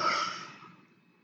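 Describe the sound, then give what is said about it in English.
A single long breath through the mouth, heard as a soft, airy rush that starts fairly strong and fades steadily away on its own. “Long breath in and out through the mouth.”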